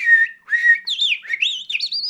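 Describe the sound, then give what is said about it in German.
A man whistles an imitation of a male blackbird's song. Two short, flat, high phrases lead into a quick fluttering run of warbling notes that rise and fall, clear and alone. “Ich kann das aber noch viel besser, die Amsel.”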